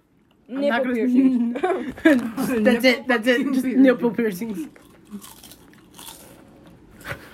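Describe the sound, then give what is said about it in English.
Crunchy chips are bitten and chewed in a series of sharp, crackling crunches. These follow several seconds of lively talk and chuckling, and the crunches are fainter than the voices. “Just ASMR chips.”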